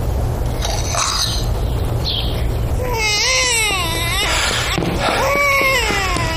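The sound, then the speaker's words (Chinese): A baby cries in loud, high-pitched, wavering wails that swell and dip, rising over a steady background noise. “听着孩子的哭声多脆声啊，走去看看。”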